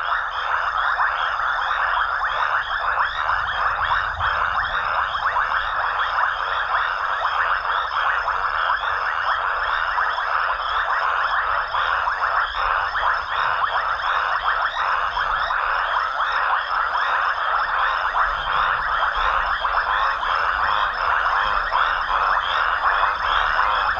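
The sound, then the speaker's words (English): A loud night chorus of raucous toads (Bufo rangeri) and insects in Africa. It is a dense, unbroken wall of trilling and croaking that holds steady throughout, with no voices. “The raucous toads, Bufo Rangiri, join the night chorus as all of the creatures seek romance in the African night.”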